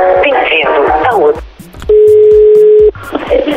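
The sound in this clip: A steady telephone tone sounds for about a second while a call is dialed, between stretches of talk before and after.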